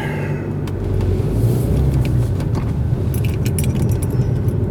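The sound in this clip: A car pulling out of a driveway gives a steady low engine rumble with light rattling and a few sharp clicks on top, holding at an even level throughout.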